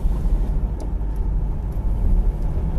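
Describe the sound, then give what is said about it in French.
Steady low rumble of a car rolling slowly with a window lowered, engine and road noise blending into a continuous, moderately loud drone with no talk. “Du coup, je vais baisser la fenêtre, on va rouler tranquillement.”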